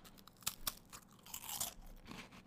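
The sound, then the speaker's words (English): ASMR-style crunching as a cracker is eaten: two sharp bites break it, then softer chewing crunches follow, faint and close with no talk. “Should I do a little ASMR? This is my first ASMR. I'm going to eat the cracker.”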